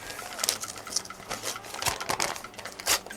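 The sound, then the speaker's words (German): A paper envelope being opened by hand: a dense run of crisp crackles, ticks and rustles, irregular in rhythm and fairly quiet, with several sharper snaps scattered throughout. “Mach doch erstmal den Umschlag auf”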